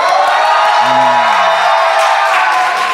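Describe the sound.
A live audience cheering and making noise at a show, a loud, continuous roar of crowd voices with a brief shout or whoop rising out of it early on.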